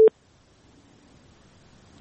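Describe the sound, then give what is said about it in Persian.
A telephone line tone after a caller's call dropped: one short, clear beep at the very start, followed by a faint, steady low hiss of the open line. “بله متاسفانه تماس آخوندزاده صاحب قطع شد.”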